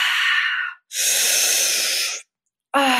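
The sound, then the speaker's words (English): Deep breathing in a guided breath-work exercise: two long, loud, airy breaths, the second one longer, are separated by a short silence, and a voice begins speaking at the end. “Exhale. Exhale. And the last 10. Inhale more. Exhale more.”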